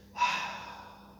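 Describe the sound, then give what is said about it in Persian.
A single long exhale out through the mouth during a breathing exercise after a held breath, a soft airy rush that swells quickly and then fades gradually. “این تنفس خیلی مهمه، درست نفس بکشیم، مخصوصا اول صبح، آخر شبا، وقت استراحت ها.”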